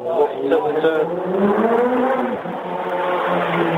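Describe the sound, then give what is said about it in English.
A motorbike passing on a street in central London, heard over a narrow-band phone line as a buzzing engine drone whose pitch shifts up and down for several seconds. “just another motorbike”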